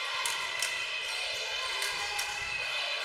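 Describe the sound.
A basketball is dribbled across midcourt in a girls' high school tournament game, with a few sharp bounces standing out over continuous crowd noise in the gym.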